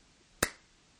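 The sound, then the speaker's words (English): A single sharp hand clap cracks out once in a quiet space and decays quickly, leaving near-silence before and after. “He claps his hands.”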